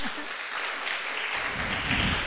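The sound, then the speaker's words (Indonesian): An audience applauds during a question-and-answer session, a short, steady, even wash of many hands clapping with no clear pauses. “Luar biasa, tepuk tangan lagi dong.”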